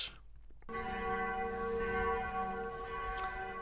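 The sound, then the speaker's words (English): A mission bell rings after a brief quiet moment, struck once and sustaining a rich, resonant tone with layered overtones that holds steady rather than fading quickly. “And that's the sound of the mission bell”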